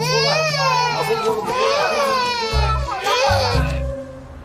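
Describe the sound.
A baby cries, loud and continuous, with a wavering, strained pitch that rises and falls through a few drawn-out wails.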